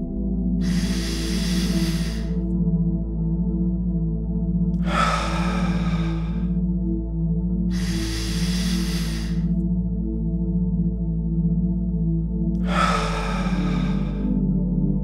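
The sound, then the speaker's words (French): Deep, slow breaths from a bedtime relaxation breathing exercise, four long airy breaths evenly spaced over a steady low hum. “Commencez par prendre quelques respirations profondes.”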